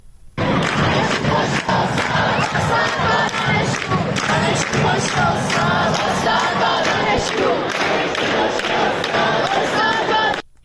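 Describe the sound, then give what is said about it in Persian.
A crowd of students chanting protest slogans at Shahid Beheshti University: loud, rhythmic massed voices shouting in unison, continuous for about ten seconds before stopping abruptly. “دانشجویان امروز موضوع اصلی اعتراض‌هاشون رو به اون اختصاص دادن و حتی در شعارهاشون هم این موضوع برجسته بوده، مثل صدای این شعار رو که میتونیم الان بشنویم در دانشگاه شهید بهشتی.”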